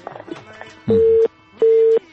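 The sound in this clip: Busy tone after a dropped phone call: two identical steady beeps, each lasting under half a second with a short gap between, follow faint talk at the start.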